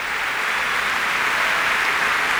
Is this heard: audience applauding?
yes